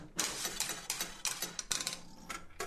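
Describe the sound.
Coin-operated penny arcade game machine of the 1950s kind being played, giving a rapid, continuous run of ratcheting clicks and mechanical clatter in many bursts, with no voices.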